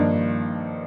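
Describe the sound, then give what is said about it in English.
A G minor 11th chord voicing played on keyboard, with root, fifth and third in the left hand: one rich, sustained chord sounds alone and fades slowly over under a second. “It's a minor 11th voicing.”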